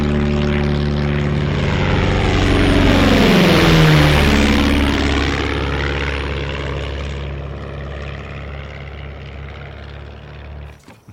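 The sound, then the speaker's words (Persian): A Super Cub propeller airplane used for crop spraying drones loudly as it passes. Its engine pitch drops sharply midway, and the roar then fades steadily toward the end. “من همه این تابستون سرم به سمپاشی با هواپیمای سوپرکاپ گرمه، پس هر وقت خواستی برو با این یه دوری بزن.”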